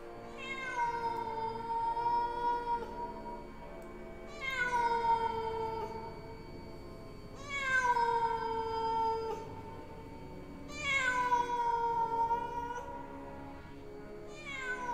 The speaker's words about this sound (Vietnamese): Tiếng mèo kêu rõ ràng là phát ra từ bên trong đó.